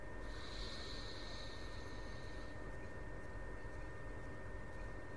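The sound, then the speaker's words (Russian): A single soft, breathy exhale from a breathing exercise lasts about two seconds. It is faint and hissy against a steady low background noise. “Выдох.”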